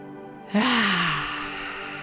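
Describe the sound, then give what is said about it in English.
A deep breath drawn in during a guided relaxation exercise: a long, airy inhale that begins abruptly and then holds and slowly softens. “Taking a deep breath in.”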